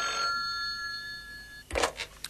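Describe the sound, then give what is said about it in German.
A telephone rings with a bright, sustained electronic trill lasting over a second, loud and alone, then cuts off as a clattering handset pickup follows. “Da klingelte das Telefon.”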